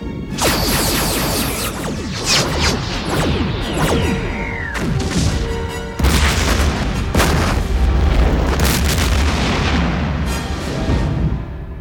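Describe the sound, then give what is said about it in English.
Quantum torpedoes fire in a science fiction scene, a loud, dense run of booming blasts and whooshing bursts that fills the whole stretch, with a sweeping tone falling midway and heavy low rumble in the second half. “quantum torpedoes. Ready, sir. Fire.”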